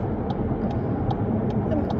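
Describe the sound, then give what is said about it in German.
Steady road and engine roar from a car overtaking trucks, a dense, even rumble that holds throughout with a few faint, brief higher blips on top. “Gott, wir überholen hier LKWs, liebe Leute im Radio.”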